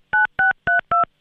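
A telephone number being dialed with DTMF keypad tones: five short, evenly spaced electronic beeps, each a steady dual tone separated by brief silences, the last cut off at the end.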